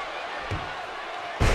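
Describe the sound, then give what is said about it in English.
A wrestler's head slams into the turnbuckle and the ring floor during a match before a hostile ECW crowd: two heavy thuds, the second louder, over a steady roar of crowd noise. “Just smashing his head right into the turnbuckle, right into the floor here during this hostile ECW crowd match.”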